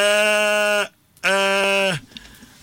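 Goat bleating: two long, loud, steady bleats with a rich, buzzy tone, separated by a brief pause.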